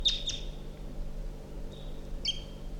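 Wild birds call with a few short, high chirps, two close together at the start and two more later, over a low steady hum.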